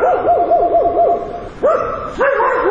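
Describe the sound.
Stray dogs barking and yelping on a city street in Rustavi at dusk, with a quick run of high, wavering yips followed by two longer, louder whining barks.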